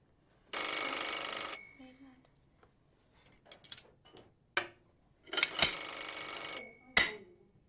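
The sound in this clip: A telephone rings twice on an outgoing call. Two long, bright bursts are separated by several seconds of faint clicks and handling noises.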